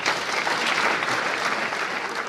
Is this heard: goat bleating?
no